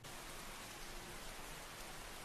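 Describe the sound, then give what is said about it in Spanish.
Steady rain falls in a soft, even hiss that stays faint and unbroken throughout, with no other sounds standing out. “Aquí también llueve.”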